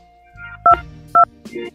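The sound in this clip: Two short, loud telephone keypad beeps sound as an access code is entered for a conference call. The two dual tones sound about half a second apart, over faint low background sounds.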